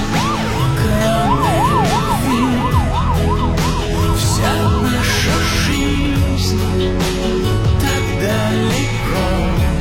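An ambulance siren in a film scene set in Moscow wails in a rapid, looping rise-and-fall warble for several seconds. It sits over a dense, steady background of other sound, then gradually gives way to that background.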